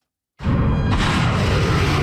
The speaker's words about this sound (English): American cruise missiles being launched at Iranian targets.